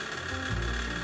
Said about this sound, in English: I know you can hear my fan, but it's really hot right now, so I'm not going to turn it off.